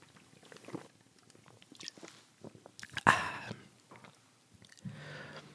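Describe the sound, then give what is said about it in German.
Someone takes a quick sip of a drink: faint, soft mouth noises around one brief, sharper slurp in the middle, very quiet overall. “Ich muss mal kurz einen Schluck trinken im Moment.”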